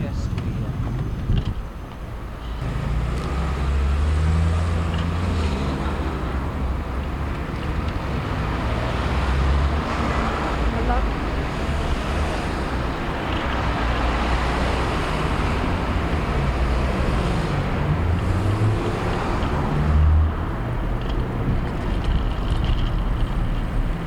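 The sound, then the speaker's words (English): Road traffic at the Highbury Corner roundabout, recorded while cycling through it: a continuous low rumble of engines and passing vehicles, steady throughout, with people talking over the top. “So this is a roundabout.”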